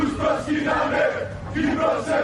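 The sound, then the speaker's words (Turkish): A Greek Cypriot protest crowd in Cyprus chants anti-Turkey slogans at a demonstration: loud unison chanting that rises and falls in steady rhythmic waves. “Türkiye ve Türkler aleyhine sloganlar attılar.”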